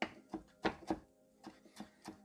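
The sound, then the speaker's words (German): A knife chops a handful of fresh parsley and mint into fine pieces for a falafel salad, giving several sharp, irregular knocks with short pauses between them. “Dann nehmen wir uns so eine Handvoll Petersilie, ups, komm her, und äh, Minze und schneiden das mal klein.”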